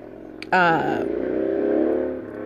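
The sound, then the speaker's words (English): Motorcycles ride past on a neighbourhood street in the morning. After an abrupt onset, a loud engine drone holds steady, its tone sliding lower at first. “apparently my neighbors all ride their motorcycles in the morning as well. I don't know if you can hear that.”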